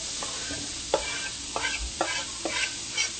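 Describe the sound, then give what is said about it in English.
Onions frying in a pan give a steady, even sizzle, broken by several scraping stirs, with no voices. “Now we're going to let these onions kind of cook up and turn clear.”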